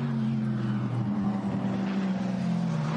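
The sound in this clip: Race car engine on the Nürburgring near the Brünnchen section, a steady, low droning hum that holds level throughout with no clear rise or fall.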